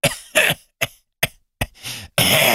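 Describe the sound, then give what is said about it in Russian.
A violent coughing fit from someone lying in a hanging bunk: a rapid series of harsh, hacking coughs in uneven bursts with short gaps, ending in a longer, rougher, sustained cough. “На этот раз приступ кашля был таким сильным, что подвесная койка заходила ходуном”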